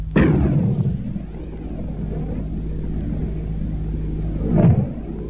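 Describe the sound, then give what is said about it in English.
A 105mm tank gun fires from an M60 main battle tank, giving two heavy, deep booms about four seconds apart, with a loud, low rumble that holds between them. “The 105mm tank gun fired from an M60 main battle tank.”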